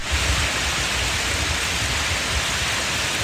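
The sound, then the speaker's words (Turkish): Heavy rain mixed with hail pours down during a downpour in Edirne that floods the city streets. It makes a loud, dense and steady hiss with no pauses, and no separate hailstone impacts stand out. “Öğle saatlerinden itibaren yağmurla birlikte dolu yağdı.”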